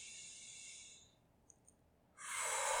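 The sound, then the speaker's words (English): A deep breath: a long, airy rush of breath fades away, a quiet pause follows with two faint clicks, then another loud, breathy rush of air begins and holds to the end. “And how about another breath?”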